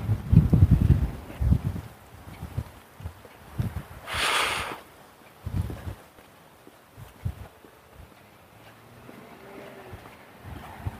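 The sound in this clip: Wind blows outdoors during a walk, a low, gusty buffeting rumble that is strongest in the opening seconds and then eases into a fainter, uneven background.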